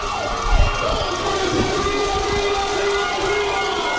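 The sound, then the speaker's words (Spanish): An excited baseball crowd cheers during the bottom of the eighth inning for the Algodoneros, a loud, continuous roar with a sustained siren-like wail running through it. “El público que sigue emocionado porque siente que puede venir algo para los algodoneros.”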